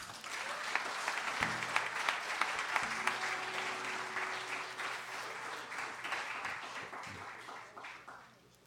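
Audience applause welcoming a performer of traditional folk music with country blues at a show in White Springs, Florida; dense, steady clapping that holds for about eight seconds, then tapers off at the end.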